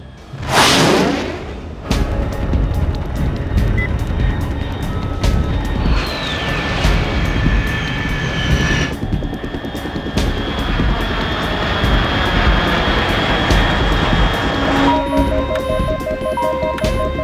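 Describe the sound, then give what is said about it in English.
Aircraft roar in a video game, a fast plane flying at high altitude: a swooshing pass at the start, then a loud, steady engine drone with a sustained tonal whine throughout. “Unidentified aircraft detected, altitude 30,000 feet.”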